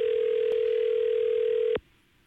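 Steady telephone dial tone after a handset is picked up: a loud, continuous, even hum with no breaks, cut off abruptly by a click near the end, followed by near silence.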